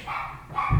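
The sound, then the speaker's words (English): A dog barks once in a brief, fairly quiet burst of short, tonal yelping sounds, heard alone without talk. “That's my dog.”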